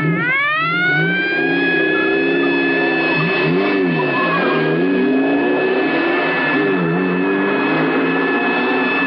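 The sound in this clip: A car engine revs hard during a police chase through traffic, its pitch climbing quickly at first, then holding a loud, sustained high roar with slight wavering as the car pushes on.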